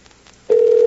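A telephone dial tone sounds as a call is placed: a loud, steady, unbroken hum that starts abruptly halfway through, after near silence, and holds at one even pitch.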